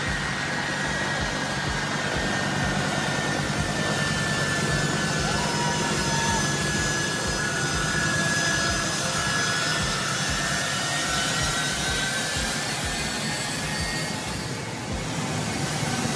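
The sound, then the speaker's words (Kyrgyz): A jet airplane taxiing on the ground with people clinging to its outside gives a steady, continuous engine roar. Faint high whining tones hold throughout, and the loudness barely changes. “Дүйнөлүк Твиттерди жүрүп бараткан учакка адамдар жабышып аткан учурун эс кылды.”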